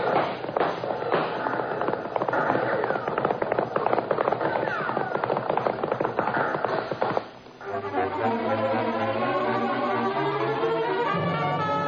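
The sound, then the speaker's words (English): Cavalry horses galloping in a western chase: a dense, rapid and loud pounding of hooves fills the first seven seconds, then gives way to music. “Here comes the cavalry now, chasing Dawson right back towards us.”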